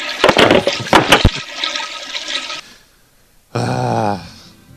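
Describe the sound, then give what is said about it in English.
A toilet flushes with a loud rushing gush and a few sharp clattering splashes at the start, then the water noise thins out over about two seconds and falls quiet. “I'm going to flush.”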